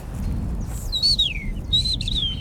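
A bird sings two clear, high whistled phrases, each gliding downward in pitch. The phrases are separated by a short gap, over a steady low background rumble.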